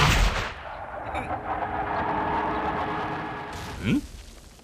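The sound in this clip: Gunfire aimed at houses below a city wall: a heavy blast opens, followed by a long rumbling roar and a second short, sharp burst near the end.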